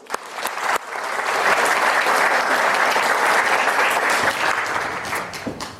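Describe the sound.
An audience at the LSE applauds to welcome speaker Gordon Hanson. A few scattered claps swell quickly into loud, dense, sustained clapping, which then thins slightly toward the end.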